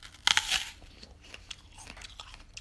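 A crisp crunch as teeth bite into a striped apple flecked with tiny green blots and small imperfections, followed by quieter crunchy chewing with no talk.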